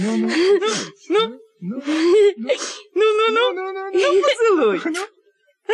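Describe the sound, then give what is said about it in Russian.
A girl whimpers on the verge of tears, letting out several drawn-out, wavering, high-pitched whines and moans with brief catching gasps between them, fairly loud. “Ты никак плакать собираешься.”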